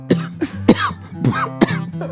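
Coughing from someone with something caught in the throat: a few sharp, harsh bursts at irregular intervals, loud over a steady low tonal hum.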